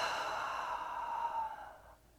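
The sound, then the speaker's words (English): A deep, slow breath during a guided breathing exercise: one long, airy exhale that holds steady, then tapers and fades out toward the end. “Fill your lungs, fill your belly, fill your whole thoracic cavity with air. And exhale it all out.”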